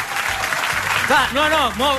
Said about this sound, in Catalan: Aneu aplaudint.